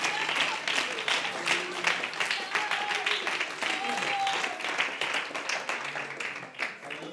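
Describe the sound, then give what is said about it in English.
Applause from a church audience during a service, a dense and steady clatter of many hands that holds for about seven seconds with a few voices mixed in, then eases slightly at the end. “Give the Lord a hand for Cole and Audrey.”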